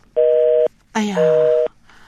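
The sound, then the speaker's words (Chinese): Two steady, mid-pitched tone bursts of about half a second each, separated by a short gap, signal a telephone line cut off mid-call. A brief burst of noise overlaps the start of the second tone. “电话断线了，我们看看是不是能够再跟他联系”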